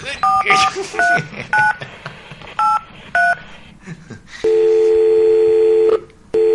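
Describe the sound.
A telephone dials an internet centre: a series of short, beeping keypad tones in an uneven rhythm, followed by a long, steady, loud line tone.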